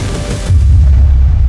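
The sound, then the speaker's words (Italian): A deep explosion as an interceptor missile from Israel's Iron Dome anti-missile system detonates beside a rocket. A loud, sudden low boom lands partway through and swells into a sustained heavy rumble. “esplode, eliminando la minaccia.”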